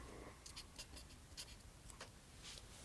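A pen scratches across paper while Japanese characters are written, with many short, quick, crisp strokes separated by brief pauses over a low steady hiss.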